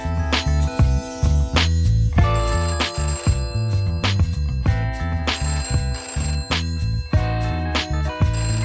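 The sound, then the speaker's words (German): A telephone ringing before an answering machine picks up: a bright, loud, repeating ring pattern with steady rhythmic pulses and no voices. “Dies ist der Anrufbeantworter von Revolution und Ferien. Leider rufen Sie außerhalb unserer Sprechzeiten an.”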